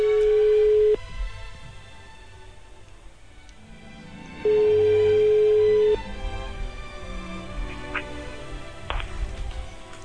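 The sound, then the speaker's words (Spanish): Ringback tone of a call placed to a mobile phone: two steady, low beeps separated by a long pause, the first cut short at the start. A constant background hum runs underneath. “estamos marcando el teléfono de Nerea. Vale. Esperemos que no tenga un sueño muy profundo y que se despierte”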